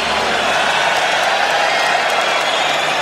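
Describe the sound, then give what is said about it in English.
Applause from an audience, a dense, even crackle of many hands clapping that holds a steady level throughout with a faint murmur of crowd underneath. “Applause for all the clients.”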